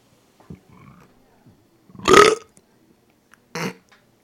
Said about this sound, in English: I burped into the mic.